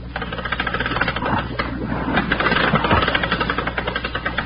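A winch engine on a ship's deck runs with a rapid, steady mechanical chugging, its rhythmic knocking pulses continuing evenly and loudly throughout.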